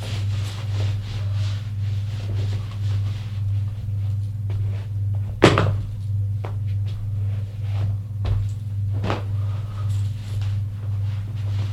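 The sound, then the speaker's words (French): A room door being shut as someone leaves: one sharp bang midway through, with a fainter knock a few seconds later, both over a constant low electrical hum and without any talk. “il sort de la pièce et ferme la porte.”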